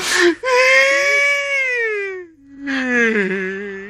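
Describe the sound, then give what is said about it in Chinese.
A person wails and sobs in a long, drawn-out cry that sinks in pitch, breaks off briefly, then resumes as a second wavering, lower wail, loud and without other sounds. “得了，哭有什么用啊？”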